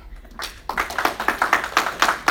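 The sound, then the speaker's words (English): An audience claps together in a steady, brisk rhythm, many crisp claps in unison at a regular pulse after a quiet start. “If you believe in Jesus, will you give Jesus a clap?”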